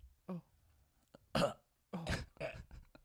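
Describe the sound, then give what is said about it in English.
A person's harsh, sputtering coughs and hacks, played up as coughing up blood: a few separate rough bursts, quiet overall, with short pauses between them. “blood. I'm coughing up blood. That means I'm alive.”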